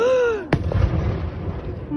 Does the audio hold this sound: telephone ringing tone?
no